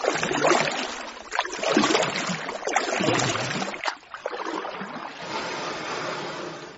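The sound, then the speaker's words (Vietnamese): Water sloshing and splashing around a small wooden boat as it moves through the water. A run of uneven surges and swishes settles into a steadier wash toward the end. “Chiếc xuồng của bảy núi đâm ngay vào chỗ Thế và Tâm ở.”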